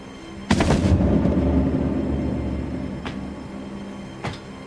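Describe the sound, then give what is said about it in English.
Gunshot effect in an audio drama: a single heavy, sharp blast followed by a long, low rumbling decay that slowly fades. Two faint clicks come later. “And sees Mazur shoot Cameron in the gut.”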